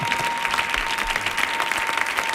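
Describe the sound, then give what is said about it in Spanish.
Audience applause, a dense, even patter of many hands clapping at a moderate level, steady throughout with no talk over it. “Y no le vaya a dar un aplauso a este hombre...”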